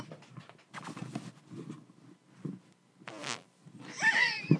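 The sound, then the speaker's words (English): A single drawn-out fart blurts out after a stretch of soft whispered talk, a rough, buzzy burst lasting under half a second, with a voice reacting right after it. “What the hell was... You just farted?”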